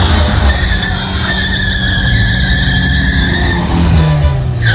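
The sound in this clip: Tyres skid loudly as a motorbike swerves past people crossing a street, a sustained high squeal over a broad roar of engine and road noise that fills the whole clip.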